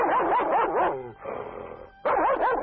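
Barking from a Tibetan mastiff kept by villagers to guard chickens: a burst of high, wavering yelping barks, a softer whining stretch, then another sharp burst of barks, loud and alone.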